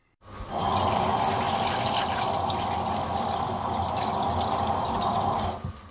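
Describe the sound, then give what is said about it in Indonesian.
Cold water pours into a large bowl being readied for cooling blanched spinach: a steady, full splashing rush that starts abruptly, holds evenly for about five seconds, then stops, with no voices. “Masukkan air dingin ke dalam mangkuk yang besar.”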